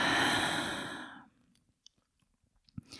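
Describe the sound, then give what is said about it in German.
A slow, deep breath exhaled during a guided meditation breathing exercise. The airy rush is fairly loud and fades out after about a second, followed by quiet, faint small clicks. “Atme tief ein und aus.”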